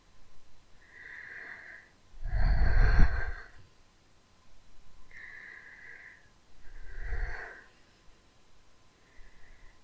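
Deep, shaky breaths taken by someone trying to calm down after a fright: a few audible inhales and exhales, two of them heavier and louder, separated by short pauses, with no talking.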